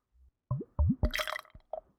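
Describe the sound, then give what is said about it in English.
Dark beer glugs out of a bottle, pouring like cola. A few quiet gurgling glugs rise in pitch, followed by a brighter fizzy splash and then a final small plop. “So it pours out like I'm pouring out a cola.”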